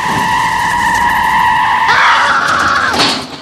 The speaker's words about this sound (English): The van speeds toward him.